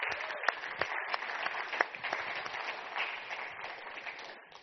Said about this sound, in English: I'm going to give you an applause,